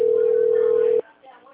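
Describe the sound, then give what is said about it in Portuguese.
A telephone line tone sounds while a call is transferred to an attendant: one steady, loud pitched beep lasting about a second, then a sudden cut to near silence. “Por favor, aguarde enquanto transferimos a sua ligação para um de nossos atendentes.”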